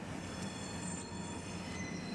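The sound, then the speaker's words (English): Freight train cars move along a railway with a steady low rumble, overlaid by thin, high, sustained metallic wheel squeals. The noise stays even and unbroken, with no voices. “Nearby freight train cars clash.”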